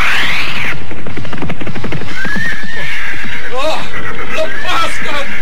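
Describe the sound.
Horse neighing and whinnying loudly while being ridden hard and driven at a frantic gallop, with shrill high whinnies at the start and again later, hoofbeats, and voices throughout.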